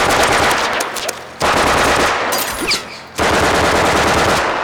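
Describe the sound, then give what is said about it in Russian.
A soldier fires a gun toward a forest in loud, sustained bursts of rapid automatic gunfire. The bursts are separated by short breaks, and the crackling shots are dense and harsh throughout. “Поднявшись, солдат стреляет в сторону леса.”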